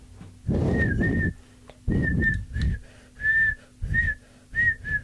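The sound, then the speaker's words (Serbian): A person whistles a short tune in broken phrases, a series of clear, high sustained notes separated by brief pauses. “Ja sam primetio da tamo držiš zid da ne padne. A zviždiš. Jel može zvižduk da bude muzika?”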